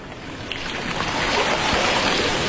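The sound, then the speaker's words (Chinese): Ocean waves on a sea shore, a steady broad rushing wash of surf that grows slightly louder, with no voices. “我们去大海里面，去大海的身边，感受一下大海清凉的气息”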